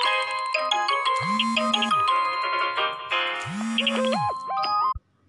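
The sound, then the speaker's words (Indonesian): A mobile phone ringtone goes off during a recording session: a bright, chiming electronic melody plays its phrase twice, then cuts off abruptly near the end, with no voices. “Sumpah aku lagi nge-record, aku lagi rekaman, ada yang nelpon dan lupa aku mute.”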